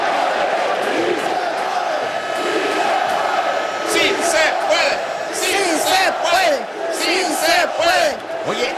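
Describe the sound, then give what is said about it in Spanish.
A stadium crowd chants the Mexican cheer "Sí se puede", a dense mass of voices that swells into loud, rhythmic repeated shouts in the second half. “esa porra que a mí también me gusta mucho, el famoso Sí Se Puede, Sí, sí se puede. Y suena así, se escucha así, escucha, en un estadio se escucha así.”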